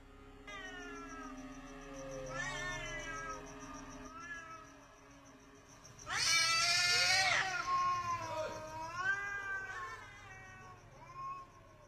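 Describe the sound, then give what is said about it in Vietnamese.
Two cats yowling loudly on a roof, with long, wavering wails that rise and fall in pitch. A harsher, louder burst of caterwauling comes near the middle. The overall level stays faint. “có tiếng kêu rất lớn ở trên mái nhà. Có hai con mèo đang gào lên ghê rợn.”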